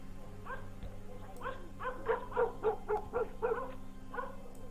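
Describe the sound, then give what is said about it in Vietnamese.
A neighbour's dog barks in the distance, a run of many short, yappy barks with a few whimpering yips, over a low steady hum. “Thị Tất cố lắng tai nghe, chỉ thấy tiếng chó nhà hàng xóm vẫn cứ sủa văng vẳng, dai dẳng, nhấm nha nhấm nhẳng đến khó chịu.”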